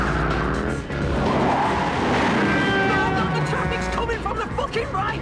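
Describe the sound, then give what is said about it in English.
An engine roars as a motorbike speeds off during a street chase among crashed cars. The loud vehicle noise runs throughout, mixed with squealing, skidding tyres, and the engine's pitch climbs toward the end. “then roars off on his motorbike.”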